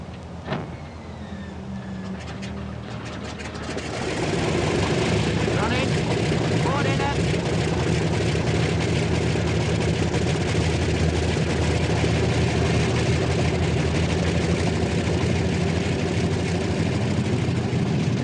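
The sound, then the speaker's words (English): Aircraft engines start up and idle on an RAF airfield as the outer starboard and port engines are switched on. A few clicks and a faint whine come first, then a roar swells in and settles into a loud, steady drone. “Starboard outer engine. Switches on, contact. Port outer.”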